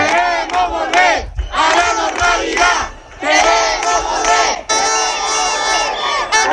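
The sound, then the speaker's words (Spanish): Crowd protesting in the streets of Ceuta at night, loud chanting and shouting voices rising and falling in rhythmic bursts, a nearly continuous roar. “Este que escuchan es el sonido de la protesta de esta noche en Ceuta.”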